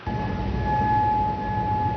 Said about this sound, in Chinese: 9号凌晨，科威特首都科威特城响起警报声。